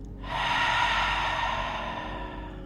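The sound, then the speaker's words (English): A deep belly breath is let out through an open mouth as one long, breathy rush of air. It swells in quickly, holds steady, then eases off slightly toward the end. “Now take a deep breath in from the belly, breathe to the top. And open your mouth, breathe out.”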